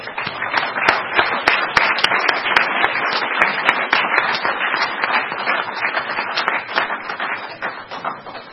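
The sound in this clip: An audience at a recovery meeting applauds to welcome a speaker: dense, even clapping from many hands, steady and fairly loud throughout without letting up.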